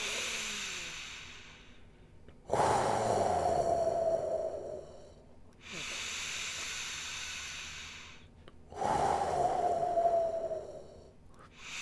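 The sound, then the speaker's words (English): Deep breaths during a guided breathing exercise: three long, airy exhalations with a soft hiss, each lasting a couple of seconds and separated by quiet pauses, with no talking. “Three more universal breaths and then we'll stay in silence for a full minute.”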